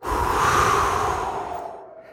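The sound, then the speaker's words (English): Deep breath and exhale, heard as one long airy rush of breath that swells quickly and then fades away over about two seconds, with no talking. “Take a deep breath. Exhale.”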